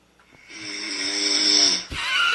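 Loud snoring recorded overnight by a sleep sound-detection app: one long, rasping snore swells and holds for over a second, then breaks off abruptly as another harsh snore begins.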